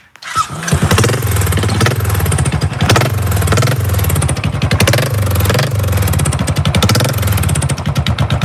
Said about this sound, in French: je vais démarrer une moto dont les connaisseurs retrouveront le bruit, peut-être.